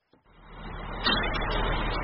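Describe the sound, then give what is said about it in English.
A fire truck rolls into a fire station after a call. Its low engine rumble starts from near silence and grows steadily louder about halfway through, then stays as a heavy, even drone. “A fire truck rolls into Station 83 after responding to a call.”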